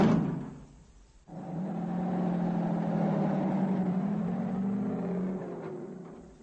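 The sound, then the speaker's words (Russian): A car engine, switched on and then driven slowly in third gear along a street, drones low and steady at a constant level after a brief, quieter opening. “Отпустив такси, я подошел к ней, достал ключ и включил зажигание. Выбрался на Менкештрассе и медленно на третьей скорости поехал по ней.”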